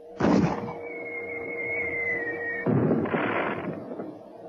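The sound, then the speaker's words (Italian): A tracer flare rocket is fired: a sharp burst, then a sustained high whistling tone that holds steady, then a second rushing burst that fades away. “Mito, spara un razzo! Subito! Razzo tracciante! Presto!”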